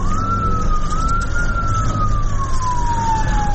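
An ambulance siren wails loudly in one long, smooth tone that rises slightly and then slowly falls, over a steady low rumble of engine and traffic.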